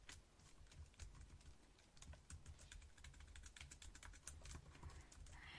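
Quiet computer keyboard typing at a hotel check-in desk while a key card is prepared: many soft, rapid keystrokes in an uneven rhythm, heard alone with no talk.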